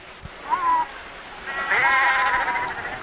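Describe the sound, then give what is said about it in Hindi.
Sheep bleat as they run toward a shepherd across mountain and forest: two wavering, nasal bleats, a short one followed by a longer, higher-pitched cry, over a steady background rush. “और भेड़ें पहाड़ और जंगल के पार उसके पीछे चलने के लिए उसके पास दौड़ी।”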